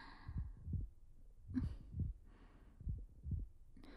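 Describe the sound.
A muffled heartbeat heard with two people pressed close together: a steady series of several low, soft thumps, with no talk.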